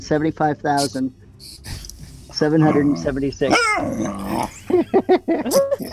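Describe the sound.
A feisty, playful female dog growls, yips and barks in many short, lively bursts with some whimpering between them. The sounds are loud and come in an uneven rhythm.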